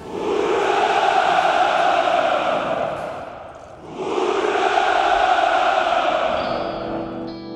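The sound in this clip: A poverty-stricken population's crowd cheers in two long, loud roars of massed voices, each lasting several seconds. The sound dips briefly between the two surges.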